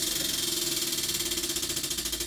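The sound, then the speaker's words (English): A prize wheel spun hard ticks rapidly against its pointer, giving a fast, even run of many quiet clicks throughout. “So those 14 topics are on the wheel. I'm going to give it a good hard spin, and we're going to see where we go today.”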